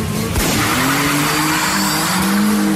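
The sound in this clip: Rally cars race and skid at a rally, with a continuous roar of engines and a high, wavering squeal of tires throughout. The sound is loud and steady, with no voices.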